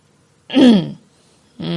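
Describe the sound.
A narrator performs a dry cough and throat clearing as one short, gruff vocal burst that drops in pitch, followed by the start of further speech.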